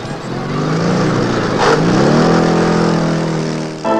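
A car driving off: a loud, steady engine drone whose tone climbs slightly midway through, then drops away abruptly at the end.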